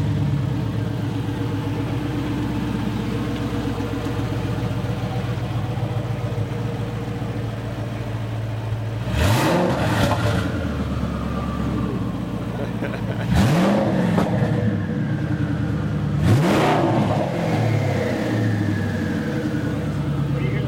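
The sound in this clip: A manual-transmission car engine idles with a low, steady rumble and is revved sharply three times, each burst climbing and then spooling down.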